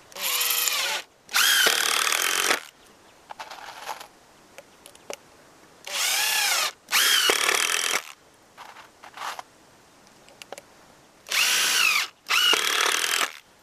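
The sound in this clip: A power drill drives a screw into wood while a small mobile home is being built. Six loud, steady whirring bursts come in three pairs, separated by quieter gaps with faint clicks and knocks.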